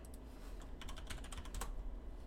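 Typing on a computer keyboard: a quick run of light, faint keystroke clicks with no voices.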